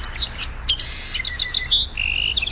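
Melodious bird song with many high, clear chirps and whistled notes, some short and some drawn out, in a varied, lively run over a low background rumble, with no voices.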